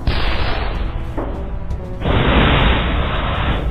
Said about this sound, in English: It's launching explosive grenades at us.